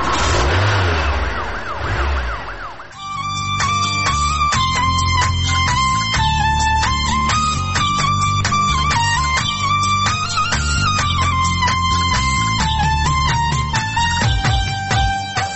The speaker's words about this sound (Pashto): اوس خبرې پرېږدئ پورته شئ موټر ته موټر ته حرکت ورکړه